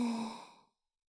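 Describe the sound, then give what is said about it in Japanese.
A single slow, soft exhale, shown as calming breathing for relaxation or hypnosis: a gentle airy sigh that fades out smoothly within under a second, then silence. “こんな風に、吸って、吐いて、”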